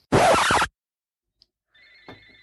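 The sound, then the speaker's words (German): A mobile phone rings during a wine tasting, with a steady two-tone electronic ring that repeats and continues to the end, after a short noisy burst and a brief silence. “Hört ihr das? Ja. Ja. Das ist mein Telefon.”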